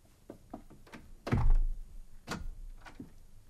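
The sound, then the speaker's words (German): A door being closed shuts with a single heavy, low thunk partway through, preceded and followed by faint light taps and shuffling. “Und schließen Sie die Tür, bitte.”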